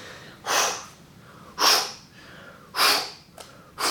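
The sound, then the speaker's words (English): A voice imitates a surfer snorting as he paddles at six-foot Laniakea: four sharp, breathy nasal snorts in a regular rhythm, separated by short quiet gaps. “Snorting as he paddled.”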